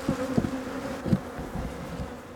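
Honeybees buzz at an open beehive, a steady, dense low drone with a few brief louder swells and no voices.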